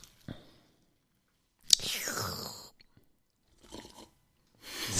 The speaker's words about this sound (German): Deswegen wird es bei mir jetzt eine Fanta geben und das charakteristische Knacken kommt jetzt.